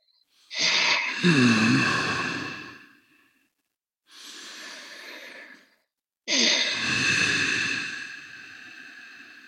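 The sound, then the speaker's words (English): Yoga breathing through a constricted throat with the mouth closed: three long, rasping, airy breaths, each a few seconds long and separated by short silences, with a hoarse hissing texture. “And the sound that you make and where the breath comes from, you're constricting the back of your throat. Okay. And all you have to do is close your mouth.”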